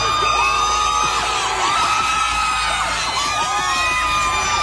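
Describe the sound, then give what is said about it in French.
Oklahoma City Thunder fans cheer at night as the players return from San Antonio after game 6, a constant loud roar of crowd noise with whoops and yells. “Il suffit d'écouter comment les joueurs du Thunder ont été accueillis en pleine nuit à leur retour de San Antonio après le match 6.”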